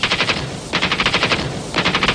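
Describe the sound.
Rapid machine gun fire during an armed raid on a hospital: three loud bursts of fast, rattling shots in quick succession, separated by short pauses.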